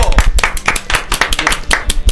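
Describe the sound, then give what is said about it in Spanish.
Clapping for two contest participants in a studio: brisk, sharp hand claps in a quick, fairly regular pattern, loud, with voices talking over them. “Y un aplauso para los dos participantes. ¡Bravo!”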